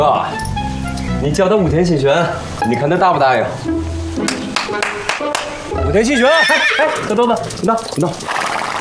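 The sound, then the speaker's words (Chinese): A horse neighs in a few bursts of wavering, high-pitched whinnies with a trembling quality, separated by short pauses. “真是一匹好马！”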